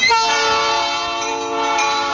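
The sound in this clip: A locomotive's train horn sounds one loud, sustained, chord-like blast that holds steady throughout and fades only slightly toward the end.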